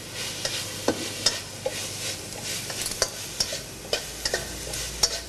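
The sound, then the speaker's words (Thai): Holy basil with red and green chilies being stir-fried in a pan: a steady sizzle runs throughout, and a utensil scrapes and taps the pan in many regular strokes. “ใช้เวลาผัดอีกเล็กน้อยนะครับ”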